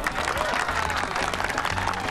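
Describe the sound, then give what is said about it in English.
Applause from people in fancy dress at a haunted house fundraiser: dense, steady clapping from a crowd that fills the whole short stretch at an even level. “People in fancy dress clap.”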